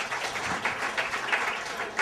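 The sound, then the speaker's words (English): Audience applause at a film screening evening, a moderately soft patter of clapping that swells into a few slightly louder bursts at regular intervals across the stretch. “Let's give a nice round of applause.”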